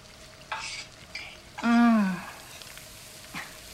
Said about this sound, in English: And then you take your wooden spoon, okay? And then you just gently stir it until the onions become soft.